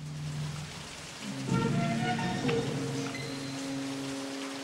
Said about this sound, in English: It's raining.